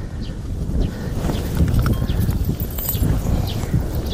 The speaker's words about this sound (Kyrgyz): Эл жайлоого көчүп жаткан маалда атын такалатып келгендердин катары да калыңдайт.